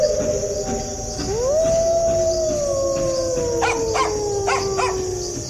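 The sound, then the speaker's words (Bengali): A pack of jackals howls near a village in the evening while local dogs answer with barks. Long, wavering howls slide in pitch over a steady chirring of crickets, and a few sharp barks break in toward the end. “একপাল শেয়াল চেঁচিয়ে উঠল কোথায় যেন আর সেই শব্দে পাড়ার কুকুরগুলো ধমক ধমক শুরু করে দিল”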